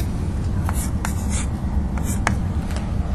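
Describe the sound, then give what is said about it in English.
A pen or marker draws on a board in a few short, scratchy strokes, faint over a steady background hiss. “I'm not bothering to draw orientations, and then in another color, I'll draw MJ. Here's MJ.”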